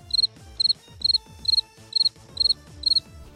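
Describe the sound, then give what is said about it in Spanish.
Crickets chirp in seven evenly spaced bursts of rapid, high-pitched trilling pulses, clear and regular, over a low, steady background. “Grillos.”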